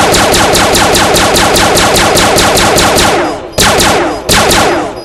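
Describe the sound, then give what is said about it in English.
A needle launcher weapon in a video game fires continuously, producing a long stream of loud, rapid, evenly spaced shots, then breaks off into two shorter bursts. “Needle launcher. This is our new weapon. Yeah, pretty cool, isn't it? You just press and hold the space bar and it continuously shoots.”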